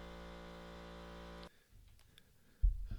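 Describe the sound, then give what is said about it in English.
An air compressor running during trim work makes a steady, even, buzzing hum that cuts off abruptly partway through. A few faint clicks follow, then a low thud near the end; the whole is quiet. “The noise that you heard in the background was my air compressor going off.”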